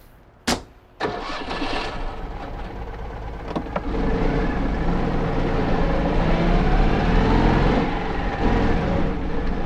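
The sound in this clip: A car engine starts after a couple of sharp clicks and settles into a steady mid-pitched running hum that grows louder after a few seconds, with no talk.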